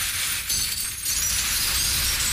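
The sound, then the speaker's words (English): Broken glass bottles are poured from a bucket onto the ground, making a continuous clattering, crunching cascade of glass shards that stays fairly even in loudness throughout. “Yeah, that is, those are broken bottles. We're going to pour this out onto the ground”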